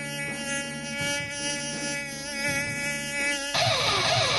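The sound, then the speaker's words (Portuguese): A mosquito buzzes inside a radio studio, a thin, steady, high-pitched whine with wavering overtones that carries on without a break and stands alone with no voices over it. “Tem mosquito aqui no estúdio? Cadê o inseticida, hein?”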